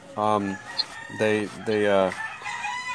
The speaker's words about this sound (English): I can hear you and roosters for a bit.